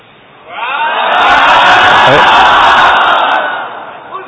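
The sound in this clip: A large crowd at a live Islamic religious gathering shouts a religious slogan together, a loud collective roar that swells up quickly, holds steady for a few seconds, then fades away.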